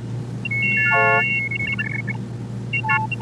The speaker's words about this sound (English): a kind of scanner that would look at text and turn it into a series of tones representing the shapes of the letters